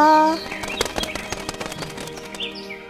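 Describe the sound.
A bird flaps its wings as it takes off from its nest, giving a quick run of fluttering beats over about two seconds, moderately loud, above a soft sustained tone.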